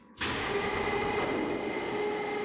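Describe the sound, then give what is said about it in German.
An airlock door on an old spacecraft slides open: the sound starts abruptly, then holds as a steady, fairly loud hiss and rumble with a constant mechanical hum underneath. “Ich öffne die Schleuse. Ja.”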